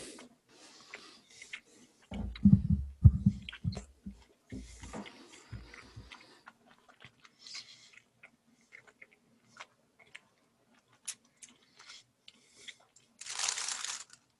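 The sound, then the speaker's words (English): Crunchy biting and chewing of a Thanksgiving dish, with a few seconds of loud, thumping chews followed by quieter scattered clicks and smacking noises. “I'm going to take another bite to see if that was just like a one-off or if it really is not that good.”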